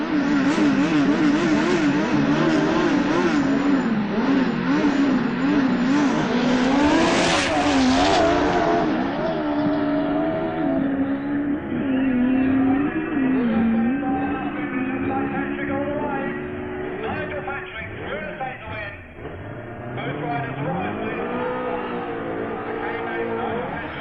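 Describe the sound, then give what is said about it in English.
Turbocharged Kawasaki motorcycles, an 1100cc and a 1000cc, racing each other. A loud, continuous engine roar runs throughout, its pitch climbing and dipping as the bikes rev. “Nigel Patrick's turbocharged 1100cc Kawasaki racing Stu Fernside's 1000cc Kawasaki, also turbocharged.”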